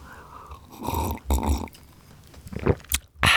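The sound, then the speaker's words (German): Sipping coffee close to the mic, a few soft slurping and swallowing noises separated by short pauses, with no talk over them. “ich, ich, ich trinke mal einen Schluck für euch.”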